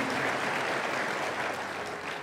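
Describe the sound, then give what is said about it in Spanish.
Applause fills a church service, a steady dense patter of many hands clapping at moderate, even loudness without any voices over it. “Dele más aplausos al Señor.”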